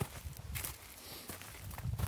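Footsteps climbing a steep, rocky mountain trail among pines and glacier-scattered boulders, heard as a few soft, irregular crunching steps, faint throughout.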